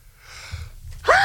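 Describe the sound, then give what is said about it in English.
A person sneezes after a quiet inhaled buildup, ending in a sudden sharp voiced burst at the very end. “oh my gosh, I gotta sneeze.”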